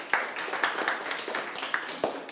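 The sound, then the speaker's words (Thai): Students in a classroom clap their hands together to applaud a group. A dense, steady patter of many claps runs throughout with no clear pauses. “ปรบมือให้กลุ่ม2หน่อยครับ”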